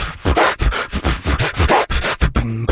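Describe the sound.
A human beatboxer imitates turntable scratching with his mouth, producing a rapid series of rough, rubbing scratch strokes in a choppy rhythm, closing with a short buzzy voiced tone.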